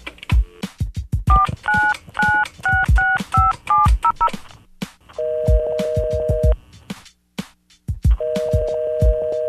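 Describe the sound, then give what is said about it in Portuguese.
A telephone number is dialed on a keypad, producing many short touch-tone beeps in quick bursts with faint clicks, followed by two longer steady tones. “Aguenta aí, já tô ligando.”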